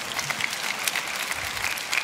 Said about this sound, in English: if you're gonna clap, you gotta go all in.